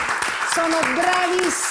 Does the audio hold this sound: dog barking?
no